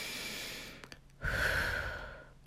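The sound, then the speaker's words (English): Soft breathing during a calming breathing exercise: a quiet airy breath tapers off, a short pause holds a couple of faint clicks, then a fuller, louder exhale slowly fades. “You can breathe with me.”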